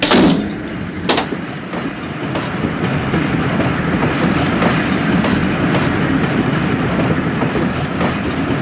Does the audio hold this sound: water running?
no